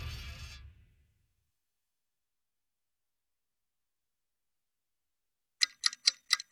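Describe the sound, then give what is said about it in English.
Clock ticking: four crisp, evenly spaced ticks come in after a long stretch of silence, and a low fading sound is heard at the very start. “Hear that? That's the sound of your valuable free time ticking away”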